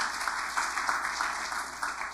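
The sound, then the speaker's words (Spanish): Applause for a presentation team fills the moment: a steady, dense patter of many hands clapping, with no voices over it and little rise or fall across roughly two seconds. “Entonces, por favor, un aplauso para todos ellos.”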